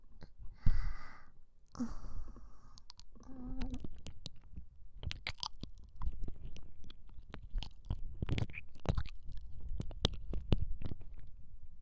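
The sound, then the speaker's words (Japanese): Ear massage sounds in an ASMR roleplay, on the other ear: close rubbing, brushing and soft scratchy taps that form many irregular bursts, faint and continuous throughout. “じゃあ反対側の耳もマッサージさせていただきますね。”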